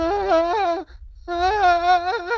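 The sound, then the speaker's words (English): A tabletop game narrator imitates a man in an unkempt chef's coat sobbing uncontrollably in a pantry, with two long, wavering, wailing vocal phrases separated by a brief pause. “A man in an unkempt chef's coat is at the very back bottom of the pantry, holding his knees and sobbing uncontrollably.”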